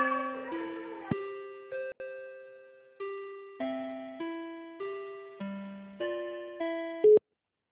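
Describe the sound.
Electronic telephone tones play while a call is transferred: a melodic run of many beeping notes at shifting pitches, each fading, ending in a brief, brighter high tone before silence.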